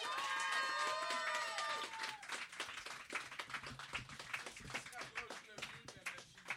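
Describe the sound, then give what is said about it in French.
A Christmas cabaret audience applauds with steady crowd clapping. A voice calls out over the first couple of seconds, then the applause continues on its own, fairly faint. “on a une bonne main d'applaudissements, s'il vous plaît!”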